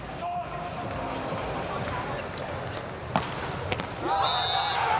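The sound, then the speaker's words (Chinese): Volleyball serve scoring a direct ace in a match: two sharp impacts of the ball ring out over steady background noise, and a commentator is speaking. “ace， 好球，这发球直接得分了”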